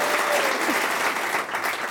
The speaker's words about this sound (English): That's a round of applause, please.